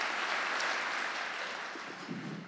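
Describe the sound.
Audience applause at a church service welcomes a pastor, a dense, steady wash of clapping that holds for about two seconds and then eases slightly.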